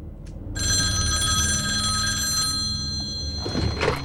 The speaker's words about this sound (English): Realizing it's a red phone on the other side of the room that's ringing, he scrambles across the desk and goes over to it.